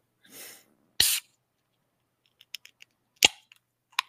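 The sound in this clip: A can of Cosmic Eye is cracked open with a sharp pop and a brief fizzing hiss. A few light scattered clicks and one more crisp snap follow.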